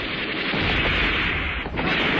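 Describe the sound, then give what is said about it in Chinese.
Enemy artillery shellfire hitting a village makes a dense, continuous, loud roar of blasts with no clearly separate booms, heard alone without talk. “敌人的炮火向井台村打过来”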